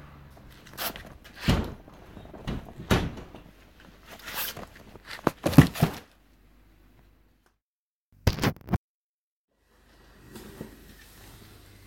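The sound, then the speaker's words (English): A cardboard package of books is opened with a series of loud ripping and rustling bursts. A quiet pause follows, then one short final tear and faint handling noise. “I'll take it in, and we'll have an unboxing.”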